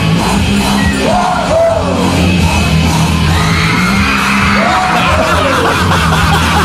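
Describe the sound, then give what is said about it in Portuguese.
People scream and whoop on a roller coaster, played back from a video, with a few wavering high yells rising and falling over a loud, continuous din of crowd noise. “os gritinhos que tava a gritaria antes, que é a morte, a gritaria da morte. Tem um grito de montanha russa ali.”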